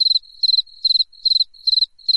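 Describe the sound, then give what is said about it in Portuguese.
Cricket chirping sound effect: bright, high-pitched trills of three or four rapid pulses repeat in a steady rhythm over a faint continuous buzz, loud and alone with no voices. “Aí vocês podem soltar o grilo.”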